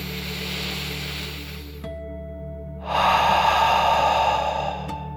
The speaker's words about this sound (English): let's take one more deep dragon breath, in and out.